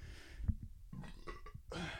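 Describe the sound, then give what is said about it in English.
A burp caught by a microphone, one short low burst followed by a few softer, faint sounds, all quiet. “Oh, I burped, but my microphone's so good it caught it.”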